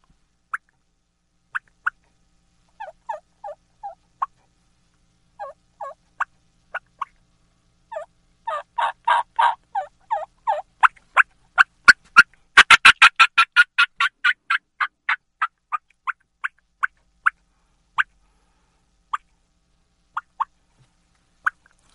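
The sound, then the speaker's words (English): A hand-operated turkey call imitates a hen's fly-down cackle with many sharp, clucking cuts, sparse at first, then speeding into a dense, higher-pitched burst before slowing and spreading out again into isolated notes. “the fly down cackle is you're cutting at a pitch and rhythm like a turkey flying out of the limb, almost like the hen is getting kicked in the butt out of the limb, and it sounds like this.”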